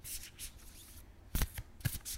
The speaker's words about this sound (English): You want some ASMR with the cards?